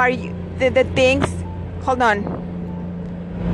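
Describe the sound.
Steady low road and engine hum inside a moving car, with a constant drone running under a person talking for the whole stretch.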